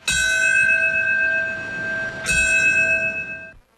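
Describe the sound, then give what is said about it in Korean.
Memorial bell tolling at a 9/11 remembrance ceremony, marking 8:46 a.m.: two loud, ringing strikes with long sustained overtones, the second about two seconds after the first, fading out at the end. “오전 8시 46분 첫 여객기가 건물에 충돌했던 시각에 맞춰 종소리가 울려 퍼집니다.”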